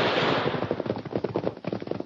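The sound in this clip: Gunfire erupts during an ambush in a canyon: many sharp shots in rapid, irregular succession, loud and dense at first and then continuing as a string of separate cracks.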